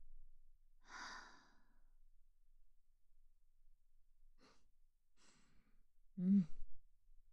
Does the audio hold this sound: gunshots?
no